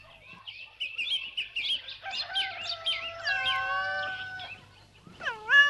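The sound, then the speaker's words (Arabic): A mother cat and her kittens meow on a farm in the sun: a run of many high, thin mews gives way to longer, drawn-out wavering meows, clear and with no talk. “تعالوا شوفوا شلقات مزرعة، وفي حد هرة مع أولاد عم يلعبوا تحت الشمس. ما شاء الله، ما أحلاهم هالبسينات الصغار وما أنعمهم.”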